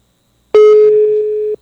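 A single steady telephone tone sounds while a call is being dialed. It follows a brief click and holds a flat, mid-pitched beep for about a second, loud and alone.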